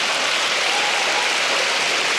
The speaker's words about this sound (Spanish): Denle un aplauso al Señor por eso.